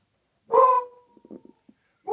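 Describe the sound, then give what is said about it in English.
A single short, fairly loud dog bark, followed by a few faint, soft knocks and rustles. “I have a dog, and I have a new puppy, so she gets very careful.”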